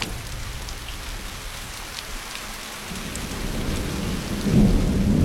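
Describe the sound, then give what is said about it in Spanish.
Heavy rain pours over a city at night during a thunderstorm with lightning, a steady dense hiss of downpour with a low rumble of thunder swelling toward the end. “Por la noche nubes negras cubren la ciudad. Caen relámpagos. Llueve intensamente.”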